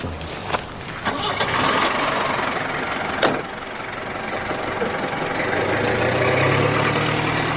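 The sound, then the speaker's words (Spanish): A car driving away along a road, heard as a broad, continuous engine rumble with a steady hum that swells slightly toward the end. “observa cómo el coche se aleja por la carretera”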